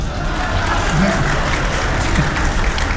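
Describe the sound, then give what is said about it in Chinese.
Audience applause fills a comedy stage show in Beijing, a steady wash of clapping that runs the whole time, with a voice faintly heard above it. “几位几位，别瞎给鼓掌，哪儿您就鼓掌来了？”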